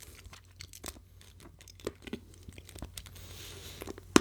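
Chewing on a crunchy banana-flavoured snack, heard as quiet, irregular crisp crunches and crackles. A few sharper bites stand out, with soft crinkling between them.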